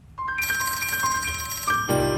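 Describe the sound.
A telephone rings to place a call: a steady, bright electronic ring starts after a brief quiet moment and continues for about two seconds, shifting its tone near the end.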